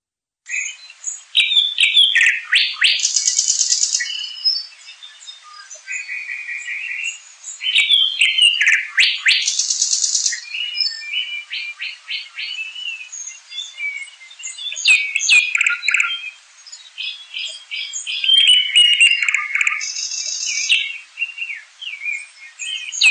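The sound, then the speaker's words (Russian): Nightingales singing: loud, varied phrases of clear whistles, rapid trills and sharp repeated notes, broken by short pauses, continue throughout with no voices. “Соловьи.”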